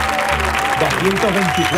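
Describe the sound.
Applause from an audience in an auditorium: dense, steady clapping fills the whole clip, with voices calling out over it.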